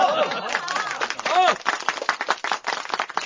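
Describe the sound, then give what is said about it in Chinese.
Lively voices give way to scattered clapping as a crowd applauds two newlywed couples at a modest wartime revolutionary wedding. “让我们一起祝福这两对新人啊，在今后的革命道路上互助互爱，取得更大成绩。鼓掌。”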